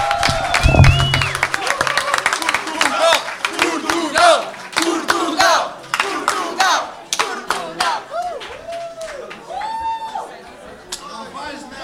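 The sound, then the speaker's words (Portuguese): Audience applause and loud cheering at an alternative song festival show. Scattered claps mix with shouts and whoops, and the noise fades into people talking toward the end. “Um grande aplauso para o mestre, o maior, Eládio Clímaco, e o seu acompanhante, Fernando Alvim.”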